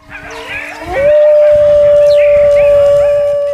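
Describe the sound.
A hyena calls with a loud, drawn-out howl. A brief lower tone rises sharply into a steady, pure high note that is held for several seconds to the end.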